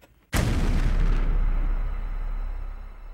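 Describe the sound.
A bomb hidden in a toolbox explodes with one sudden, loud blast, followed by a long, deep rumbling decay that slowly fades.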